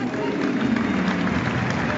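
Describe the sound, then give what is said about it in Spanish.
Stadium crowd at a football match with Independiente applauding a player called Rey, a dense, steady roar of clapping and crowd noise throughout with voices mixed in. “quiero ver el aplauso de la gente. A ver, Rey.”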